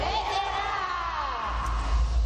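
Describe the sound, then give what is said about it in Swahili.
A crowd ululates for joy while giving thanks. Many shrill, wavering trills overlap in a continuous high chorus over a low rumble. “Vigelegele vya shangwe kwa baba. Zidisha vigelegele.”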